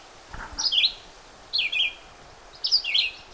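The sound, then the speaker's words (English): Red-eyed vireo song: three short, sweet, warbled phrases separated by pauses, of moderate loudness over faint background hiss. “So, a sweet song to hear. Red-eyed vireo.”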